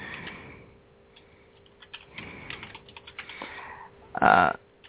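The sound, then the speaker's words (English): Keys tap irregularly on a computer keyboard, giving faint, sparse clicks in loose bursts with pauses between them. “Now, you guys, I know you hear me typing.”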